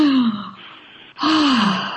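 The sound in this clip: Two deep voiced breaths from a woman pausing to breathe mid-conversation: each is a long audible sigh that falls in pitch, separated by a brief lull, with no words.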